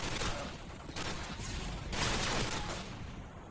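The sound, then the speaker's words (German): Video game gunfire from a gun fitted with a holographic sight in Modern Warfare 2, with a few dense bursts of rapid shots, fairly quiet. “This gun might be the best with this holographic sight.”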